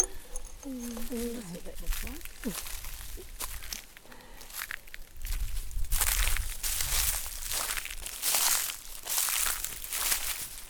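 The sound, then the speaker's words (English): Footsteps through dry leaves, heard as many crunching, crackling steps in an uneven rhythm. They are quiet at first, then louder and more frequent through the second half. “Walking through dry leaves.”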